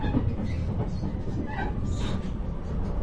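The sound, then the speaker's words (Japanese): A train rumbles into a station as it arrives. A steady, broad rolling rumble and hiss of the rail cars carries on throughout without a break, with no voices. “まもなく日出の到着です。”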